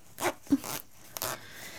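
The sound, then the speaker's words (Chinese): A clothing zipper is tugged upward on a garment that will not close, giving a few short, scratchy rasping strokes with pauses between them. “是最近又胖了吗？拉链怎么拉不上啊？”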